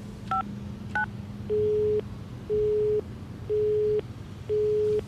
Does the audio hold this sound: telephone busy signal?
yes